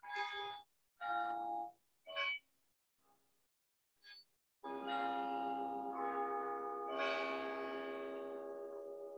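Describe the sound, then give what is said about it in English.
Bells ringing: a few short, clipped bell tones sound with brief gaps, followed by a long, sustained ring full of overtones that swells again toward the end. The ringing is faint throughout. “it's nice to have bells”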